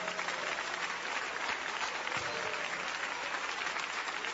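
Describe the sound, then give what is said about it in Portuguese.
An audience claps in praise during a church service, producing a dense, steady patter of many hands that holds at an even level throughout with no voices on top. “Podem louvar a Deus com as palmas.”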